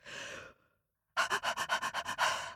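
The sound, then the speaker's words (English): Dog panting: a short breathy exhale, a brief silence, then a quick, even run of many sharp pants, moderately loud and heard alone. “And just then along came a dog, or perro, as they say in Spanish.”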